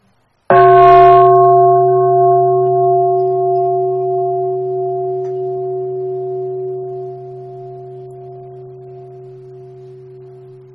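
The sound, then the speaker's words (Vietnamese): A meditation bell at a mindfulness retreat in Thailand is struck once, sounding a loud, pure, steady ring that fades slowly over about ten seconds, alone and without voices. “Tiếng chuông này là cơ hội để cho mình thực tập ba hơi thở vào và ba hơi thở ra sâu lắng, đem lại cái bình an, cái sự lắng dịu của thân và tâm.”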